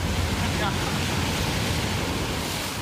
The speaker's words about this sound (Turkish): Somali'de en çok bilinen plajlardan birisi Lidoviç plajındayız. Özellikle bu arkamda görmüş olduğunuz sahil kesiminin açıklarında Türk donanması görev yapıyor.